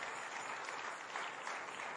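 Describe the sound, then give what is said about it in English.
A church audience gives a hand clap during a morning service, a short, soft, continuous patter of many hands. “Let's see if we can give the Lord a good hand clap here this morning.”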